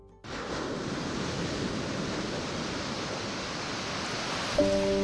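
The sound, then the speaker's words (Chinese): Sea waves from the East China Sea tide wash into the salt pans on an island in Xiangshan, Ningbo, Zhejiang, making a steady, even rushing surf that holds at a constant level. “东海潮水每日如约而至”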